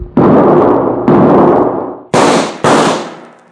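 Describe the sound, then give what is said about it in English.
Four loud carbine gunshots ring out in a horseback gunfight, each a sharp crack trailing off in a long fading tail, with the last two shots fired close together. “Come on, get that carbine out of your saddle boot and use it.”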